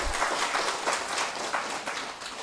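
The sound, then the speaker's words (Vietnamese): An audience applauds at a Buddhist sutra lecture, with dense, steady clapping that stays fairly loud through the whole stretch without pauses. “Cho anh tràng pháo tay đi.”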